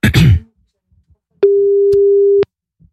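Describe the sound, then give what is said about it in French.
A steady, single-pitched telephone ringing tone sounds once for about a second while a call is being placed, following a brief burst of voice at the start. “On appelle Cynthia maintenant.”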